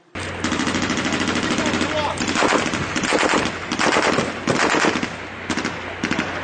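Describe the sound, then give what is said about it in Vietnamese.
Gunshots ring out in rapid automatic bursts, many shots fired in quick succession. The fire is loud and nearly continuous, with brief gaps between volleys. “Thêm mấy phát súng nữa nổ vang.”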